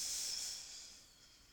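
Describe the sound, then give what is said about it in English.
A single breathy exhale during a yoga flow sequence, a soft airy hiss that starts fairly loud and fades steadily over a second and a half, with no talk over it. “Breathe out.”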